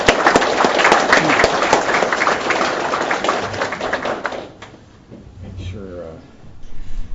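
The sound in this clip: Audience applause welcoming a guest speaker at a church service. Dense, steady clapping fills the first four seconds or so, then dies away, and a voice begins speaking.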